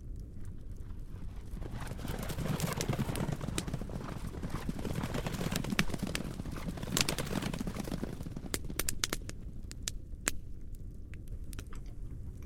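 Hooves of several saddled horses clip-clop fast as their riders set off toward a nearby town, a long run of many quick, sharp hoofbeats at a fairly steady level throughout.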